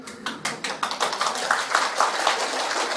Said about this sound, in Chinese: 啊，拍手表示大家愿意修了啊。